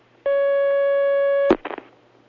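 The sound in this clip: A telephone line tone for an incoming call sounds as one steady, unbroken mid-pitched note for about a second and a quarter, then cuts off with a click and a brief clatter.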